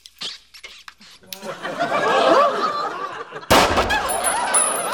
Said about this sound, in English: Holy crap! Got him. You carry a gun? No, this isn't really a gun. This is a gun.